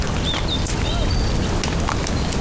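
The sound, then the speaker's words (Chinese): Horse hooves on a horse-drawn ride make a dense, steady clattering rumble that continues without a break. “那咱们能让马儿快点不？”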